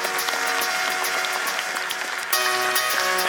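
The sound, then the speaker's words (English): An audience in Edmonton applauds to welcome a speaker to the stage. Dense, steady clapping stays loud throughout, with a brief dip and a fresh swell near the end. “So without much further ado, let's give him a warm Edmonton welcome, folks.”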